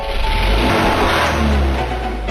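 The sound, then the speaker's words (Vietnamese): A car speeds out through a gate, its engine accelerating hard in one loud, steady roar that fills the whole short stretch without a break. “Bố vọt xe ra cổng thật nhanh.”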